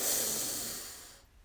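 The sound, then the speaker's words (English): A deep breath drawn in from the belly: a long, airy rush of inhaled air that is strongest at the start and fades steadily over about a second. “We begin by taking three deep breaths all the way from the bottom of our belly. We breathe in.”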